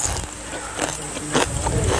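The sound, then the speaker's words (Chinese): Crispy fried fish skin with its scales still on is chewed, giving a run of crackly, brittle crunches at uneven intervals with no talk over them. “像那个炸鸡腿儿，当我嚼到后边的时候，它那个鱼皮的胶质就迸发出来了，你就发现鱼鳞那咯吱咯吱的全都碎在嘴巴里边，很脆。”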